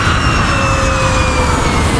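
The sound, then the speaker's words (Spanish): An airplane in flight gives a loud, steady, broad rushing roar with thin whining tones running through it; no voices are heard. “Ursula von der Leyen, presidenta de la Comisión Europea, viaja en avión.”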